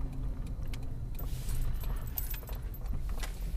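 A car drives with a steady low engine and road rumble, while loose keys jangle and clink throughout. No one speaks.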